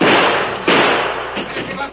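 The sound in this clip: Rifle gunshots in an old radio drama: a few sharp, booming bangs, each with a quickly fading tail, sounding dull and muffled.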